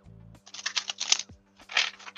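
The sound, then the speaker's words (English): Tarot cards being reshuffled give two quick bursts of papery, crackling riffles split by a short pause, over a faint low hum. “Let's reshuffle the cards a couple of times here.”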